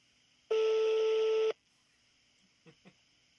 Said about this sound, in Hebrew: למי אתה מחייג?